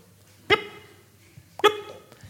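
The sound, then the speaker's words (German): A voice imitates the clicking sound of a smartphone clicker app. It makes two sharp, voiced clicks about a second apart over a quiet background. “eine App, die hat einfach ein Klackgeräusch gemacht. Da hattest du so ein Plättchen auf dem Display und dann drückst du drauf und dann macht die.”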